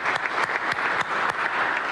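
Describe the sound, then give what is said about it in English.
A church audience claps during a Sunday service: dense, sustained applause from many hands, steady and fairly loud from start to finish, with no voices standing out. “Please join in me with me to clap for the glory of God.”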